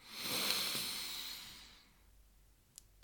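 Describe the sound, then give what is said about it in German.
A deep breath drawn in during a guided relaxation exercise: a soft, airy hiss that swells early, holds, then fades out by about two seconds, leaving near silence. “Und gerade nochmal. Tief einatmen.”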